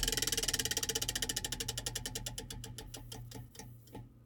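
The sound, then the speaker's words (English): A topic wheel spins while its clicker strikes the pegs. Many rapid, sharp clicks run in a steady rhythm, then gradually slow and spread out as the wheel winds down to a stop, under a faint low hum. “it's stuck on the little, you know, sticky out thing, whatever it's called, that that rolls on it, that noisemaker. All right, so that was social media politics. Let's spin it again, 15 minutes.”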